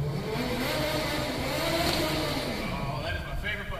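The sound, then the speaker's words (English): A large custom-built remote control car drives with a continuous electric motor whir and road noise, a steady, dense roar that holds fairly level throughout. “Folks, this is just like any other remote control vehicle you can find at a store.”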